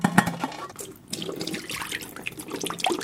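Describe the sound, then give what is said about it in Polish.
Boiled jacket potatoes are drained, with water pouring and splashing in a steady, fairly loud rush and a few sharper clatters near the start. “Ale najpierw trzeba odcedzić kartofelki.”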